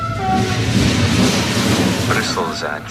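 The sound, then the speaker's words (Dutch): A train rumbling into Brussels-South station gives a steady, heavy low roar with faint tonal whine above, holding level throughout; voices seem to rise briefly near the end. “Brussel-Zuid, uitstappen aan de rechterzijde. We hebben een goede 19 uur in de trein gezeten.”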